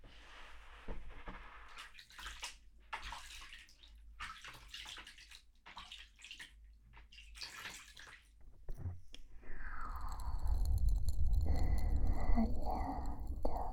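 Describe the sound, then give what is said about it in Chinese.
Running water rinsing hair during a hair wash: soft whispered speech comes first, then a steady, rushing hiss of flowing water begins partway through and continues to the end. “你的头稍微温一点，我要给你冲水了。闭上眼睛。”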